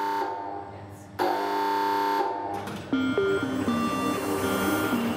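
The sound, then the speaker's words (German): A warning tone sounds as a large old precision measuring machine with a huge gearwheel starts up. A steady tonal drone jumps in loudness, then a run of short pitched beeps plays over the ongoing hum. “Konzipiert für hochpräzise Messungen, setzt Kevin die Maschine mit einem Warnton in Gang.”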